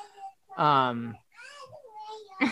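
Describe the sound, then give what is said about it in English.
A toddler babbles after letting himself out of his room, making a few short, high-pitched voiced bursts with pauses between them. “toddler let himself out of his room. I'm going to go get him and put him back.”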